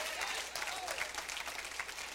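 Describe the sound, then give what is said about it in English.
Applause from a church audience clapping their hands in praise during a sermon, a dense, steady wash of many hands at even loudness throughout, with no single voice standing out. “Somebody shout, give God a hand clap of praise.”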